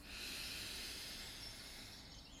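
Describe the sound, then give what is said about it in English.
A single long, deep breath drawn in during a guided breathing exercise, heard as a faint, steady airy hiss that lasts a couple of seconds. “Let's take another deep breath in.”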